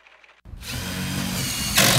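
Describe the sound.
Power drill driving into plywood being fixed over store windows after riots in Philadelphia: a brief near-silence, then a steady high mechanical whir that holds evenly and grows louder and brighter toward the end.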